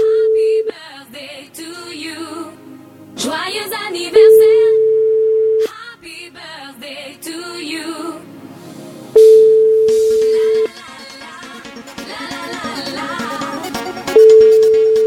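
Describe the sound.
Telephone tone on a call that is not getting through: steady, even-pitched beeps of about a second and a half each, recurring roughly every five seconds, with voices and other sound filling the gaps between them.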